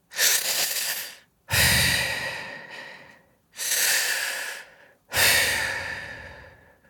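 Slow, heavy human breathing, performed to show how a dying person breathes: four long, loud rasping breaths, each fading away, with brief silent gaps between them.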